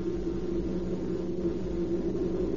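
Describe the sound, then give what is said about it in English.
A car engine drones steadily as the car drives down a city boulevard at about 35 miles an hour, a radio drama scene. The low, even hum holds throughout with no voices or other sounds. “Down Beverly Boulevard drives Harry at 35 miles an hour.”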